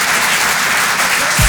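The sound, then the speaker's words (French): Loud audience applause at a comedy and song show, a brief, dense burst of clapping that stays strong from start to finish. “Faites du bruit pour Pierre Tijoux.”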